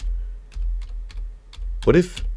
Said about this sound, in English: Let's type it in YouTube. KDWN.